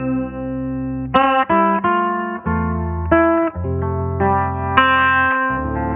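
Electric guitar played through an overdrive pedal with the drive turned down picks out a bright, melodic line of sustained notes, with two sharp, louder attacks standing out among the smoother phrases.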